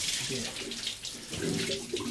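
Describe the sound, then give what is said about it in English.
Spring water gushes out of a farm pump in a pump shed, a steady rushing splash at an even level that carries on without pause. “So this is the pump shed, so this is where the water comes out below here. Turn it on.”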